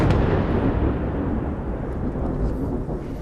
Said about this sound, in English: We've been here for about 10 minutes and there's been a wave of very intense Israeli airstrikes. We've just heard another one and we can see the plumes of smoke rising